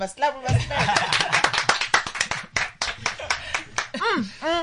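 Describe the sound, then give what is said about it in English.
Two hosts clap their hands together to open a show, a quick run of many sharp claps mixed with chuckles and lively speech. “we must clap. That's how we open the show.”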